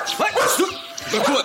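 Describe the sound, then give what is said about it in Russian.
A dog barks loudly, several sharp, throaty bursts in quick succession, with a brief gap before a final bark. “проклятый картофельный пес-обманщик встал вдруг на задние лапы и чудовищно гаркнул сержанту в самое ухо.”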